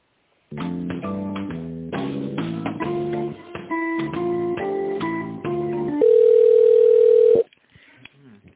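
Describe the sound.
Telephone line sounds while a call is transferred: a thin, band-limited electronic melody of short stepping notes, then one steady sustained tone lasting over a second before cutting off.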